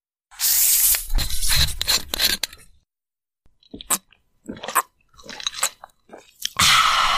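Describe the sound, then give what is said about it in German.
Someone chewing a chocolate biscuit: loud crunchy bites for a couple of seconds, a short pause, then several smaller irregular chewing bursts, ending with another loud crunch. “Und jetzt noch einen Keks. Wo habe ich denn die Kekspackung? Ah, hier. Ein leckerer Schokoladenkeks.”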